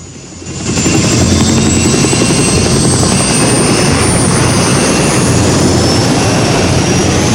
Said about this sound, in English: Tail blades on the helicopter whirl round. Squads of policemen board helicopters, which then lift off.